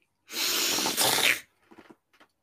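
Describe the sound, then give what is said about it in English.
A single loud, long sniff of celery held up to the nose, a sharp breathy rush lasting about a second, followed by a few faint, short rustles. “So it sounded like you maybe inhaled a piece of celery. So I did.”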